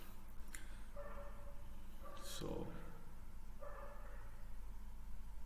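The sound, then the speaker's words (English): Dogs bark at midnight, giving a few faint, drawn-out barks and whines that rise out of a constant low hiss at irregular intervals. “if you hear those, the dogs barking, it's just midnight and they're just chilling out, shouting.”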